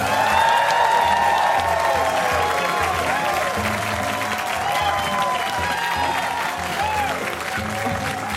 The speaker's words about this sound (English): Well, as you can hear, we are here today before a full audience at WBUR City Space public events venue in Boston, Massachusetts.